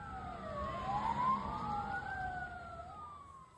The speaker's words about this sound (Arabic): ونقلت سيارات الإسعاف جثمان الشهيد وجرحى إلى مستشفى شهداء الأقصى.